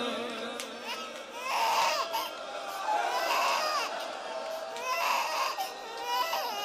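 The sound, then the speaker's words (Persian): An infant cries in a few wailing bursts that rise and ease off, with adult voices talking quietly alongside. “بچه وقتی گریه کنه سخت ساکتش کنه.”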